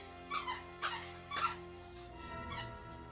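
A dog whimpers in four short, high, whiny yelps, the last one fainter, over steady low background noise.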